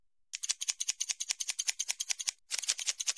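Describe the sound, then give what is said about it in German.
Scissors snipping the tips of hair during a haircut: a rapid, even series of many crisp metallic snips, then a brief pause before another quick burst of cuts. “Ich habe jetzt exakt 2 mm geschnitten.”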